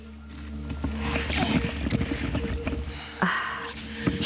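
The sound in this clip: A small boat is lowered into water and begins floating, giving steady watery sloshing and soft knocking, with a sharper knock near the end.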